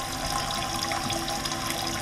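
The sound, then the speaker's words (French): Liquid running from a copper still distilling red fruit spirit, a steady, unbroken rush of flowing liquid that holds an even level throughout, with no voices. “l'alambic a travaillé, le fruit rouge est devenu liquide, transparent”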